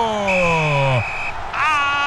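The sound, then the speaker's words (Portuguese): A referee's whistle sounds at a World Cup football match, with a long, steady, shrill blast followed by a second blast. Loud crowd noise runs underneath, along with a lower tone that slides downward beneath the first blast. “apita o árbitro”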